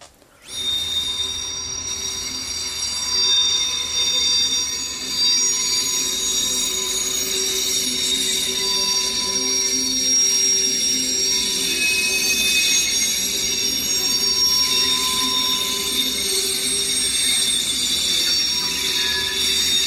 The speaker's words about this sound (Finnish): Se ääni on junan kiskojen kirskunta junan tullessa asemalle ja jarruttaessa.